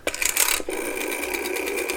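Ringing of an outgoing telephone call: a steady high electronic tone with rapid pulsing that lasts about two seconds, loud and without voices.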